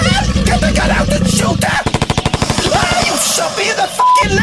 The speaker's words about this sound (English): shoot the crocodile, but you shot me!